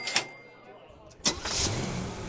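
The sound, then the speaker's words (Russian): A car engine starts: a short crank sounds, then a sudden loud catch settles into a steady running rumble. Voices talk alongside it. “Так значит, теперь, чтобы послушать радио, мне не придется глушить мотор?”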